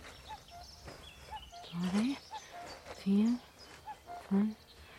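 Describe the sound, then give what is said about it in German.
Faint cuckoo calls repeat a few times in spring parkland, sitting beneath a louder voice that speaks over them in short bursts. “Ja, der Kuckuck.”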